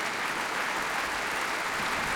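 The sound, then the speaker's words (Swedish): Steady applause fills a concert hall as an audience claps for the orchestra, a dense, even wash of many hands continuing without pause, with no speech over it. “Ja, det är applåder för alla.”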